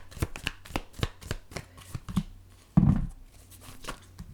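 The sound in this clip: Tarot cards being shuffled, with many quick papery riffles and flicks at a steady pace and one louder, fuller burst of cards past the middle.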